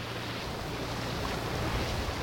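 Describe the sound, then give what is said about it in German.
A boat passing on a river amid the Havel meadows: a steady, broad wash of water and low rumble that holds evenly throughout, with no voices. “Gerade fährt ein Boot vorbei, danach ist es wieder still.”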